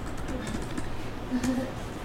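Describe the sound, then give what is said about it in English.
Typing on a computer keyboard produces quick, faint, irregular clicks under soft talk. “I am just going to type what you say.”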